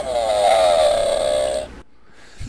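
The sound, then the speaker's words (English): A groan sound effect played from a soundboard: one drawn-out, nasal vocal moan lasting under two seconds, then cut off abruptly into near silence. “So here's the groan. This one goes out to you.”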